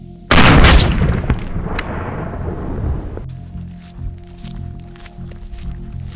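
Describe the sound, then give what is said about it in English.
A single loud gunshot fired through the chest of a ballistic test target, aimed at the sternum and heart. It cracks sharply, then a booming decay rumbles for a few seconds before quieter background noise takes over. “We're going to be doing a shot center of the chest, going through the sternum and the heart, hopefully.”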